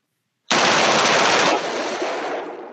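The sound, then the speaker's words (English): A machine gun opens fire abruptly after silence, a dense, loud burst of rapid shots lasting about a second, followed by a fading, rumbling tail. “So there's the show. First machine gun shoot.”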